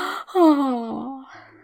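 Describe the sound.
A long, voiced human yawn, one drawn-out groaning breath that slides steadily downward in pitch after a brief intake of air.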